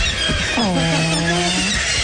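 A bird squawks while being caught, giving one drawn-out harmonic call that dips at the start and then holds a steady pitch over constant background noise.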